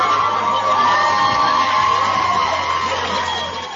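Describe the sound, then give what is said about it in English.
A hometown crowd cheers and applauds after a high school baseball game in which the Brenham Cubs clinch a district championship. The steady roar holds throughout, easing slightly near the end. “And a nice ovation from the hometown crowd”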